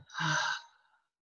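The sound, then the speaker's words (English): A single deep breath, a soft and breathy sigh-like rush of air lasting about a second, heard alone with no talk. “Now slowly but surely come back, take a deep breath,”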